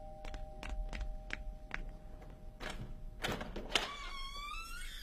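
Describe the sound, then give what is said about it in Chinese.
A door is opened, heard as a run of sharp light clicks followed by a few heavier clunks of the latch and door. “开门去。”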